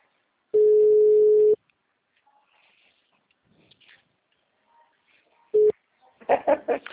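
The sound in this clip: A telephone line signals as a caller phones in. A steady one-second electronic tone sounds, then a long near-silent gap, then a brief second tone, followed by a few short bursts of line noise.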